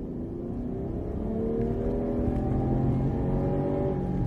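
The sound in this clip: Steady engine drone from a Subaru 3.6 litre petrol station wagon with a 191 kW engine and CVT gearbox while driving, a continuous low hum with smooth harmonics that creep slightly upward in pitch.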